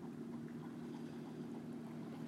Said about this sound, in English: I guess except for the motorboat in the distance.